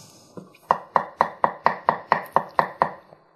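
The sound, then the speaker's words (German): A knife chops cucumber on a board: about ten sharp, crisp chops land in a steady, even rhythm, with a softer tap just before them and no talking. “So, dann nehmen wir die Gurke, tun die klein schneiden”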